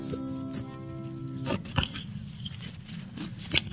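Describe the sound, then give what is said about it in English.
Scissors snipping through a bedsheet to cut holes in it; a few crisp, sharp snips stand out against a quiet background, following a brief tonal passage at the start. “why are you cutting holes in that bedsheet?”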